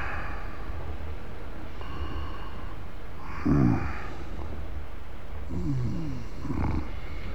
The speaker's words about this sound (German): Hey, Sie. Ja? Sie schnarchen.